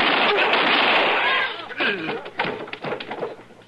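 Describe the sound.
A loud gunshot blast fills the first second and a half with a sustained crack that fades, then a man's voice speaks.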